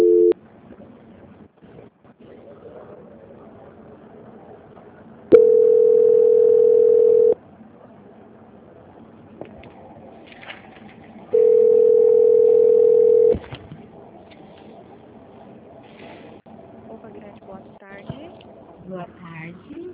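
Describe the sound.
A telephone line plays tones while a call is being transferred: two long, steady beeps of about two seconds each, separated by several seconds of quiet line noise, with faint voices talking in between.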